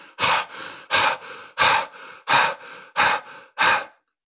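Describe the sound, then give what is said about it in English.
Fast, deep belly breathing with forceful exhales: six sharp, loud breath bursts come in a quick, even rhythm, each one a strong blowing rush of air, heard alone. “This is a fairly fast breath. And again, each inhale is going deep into my belly and I'm forcefully blowing out the air.”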